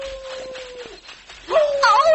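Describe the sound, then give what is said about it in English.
A wolf howls: a long, steady high note that drops away, then a louder, wavering cry with whining overtones. “And now a wolf howls.”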